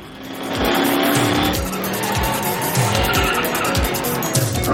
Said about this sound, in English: Cars skid to avoid him as he pulls a skillful U-turn on the beach road